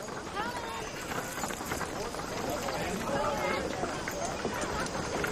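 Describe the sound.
Hooves clip-clopping as a horse-drawn wagon pulls into town, a steady trotting rhythm over several seconds with murmuring voices in the background.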